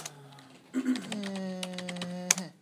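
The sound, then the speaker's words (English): Keystrokes on a computer keyboard as a command is typed into a command prompt: a quick run of light clicks, ending with one sharper tap. “Open up a command prompt and type ipconfig.”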